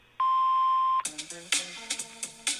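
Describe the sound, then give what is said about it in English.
A single voicemail tone beep: one clean, steady, mid-pitched tone lasting under a second, followed by a string of short plucked musical notes. “You have reached the voicemail box of Triggered Not Traumatized. Hello. Please leave a message after the tone.”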